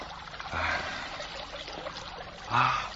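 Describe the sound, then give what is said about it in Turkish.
Running water trickles steadily in a continuous, splashy wash, with two louder swells near the start and the end. “İşte bak. Su.”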